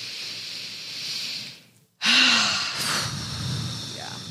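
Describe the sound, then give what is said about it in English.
A deep breath drawn in during a yoga breathing practice: a brief pause, then a full, airy inhalation that swells and holds before easing off. “Let's take a breath in.”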